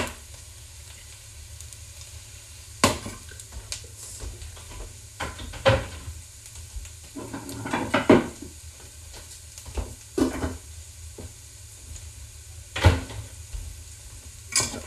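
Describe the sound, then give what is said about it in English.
Onions fry in a pan for a stroganoff, giving a steady low sizzle broken by intermittent scrapes and clanks of stirring. “These won't take long, so you want to make sure you're monitoring them, because you don't want these onions to burn. Otherwise, you're going to have a burnt taste just throughout your stroganoff.”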